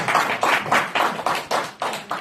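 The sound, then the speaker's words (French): Rhythmic clapping in quick, even bursts from maternity ward night staff and emergency doctors dressed in medical gowns as extras on a music video shoot, repeating steadily without talk. “Wow, double applaudissement, hein.”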